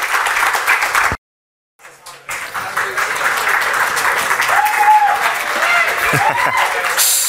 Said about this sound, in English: But in the meantime, give it up for Tim Clancy and Ronan Finn.